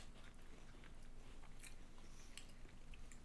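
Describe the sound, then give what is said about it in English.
Someone chews food close to the microphone: faint, moist crunching and biting, with a couple of crisper crunches standing out, and no talk. “Don't try to eat in the mic because people don't like that sometimes.”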